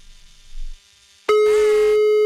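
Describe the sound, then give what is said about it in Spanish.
Telephone line signal after dialing a call: a loud, steady, unbroken electronic tone that starts abruptly after a quiet stretch of faint background noise and holds at an even pitch to the end. “Marcamos ahora. Morning. A ver si nos contestan.”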